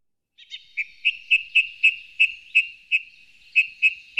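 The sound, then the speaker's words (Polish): Bird song: a steady series of many clear, high-pitched whistled notes, evenly spaced and of similar loudness, heard alone against silence. “Co to jest za ptaszek?”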